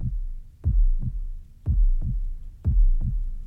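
A heartbeat sounds as steady, low, muffled double thumps, with about three full lub-dub pairs evenly spaced, alone and without talk.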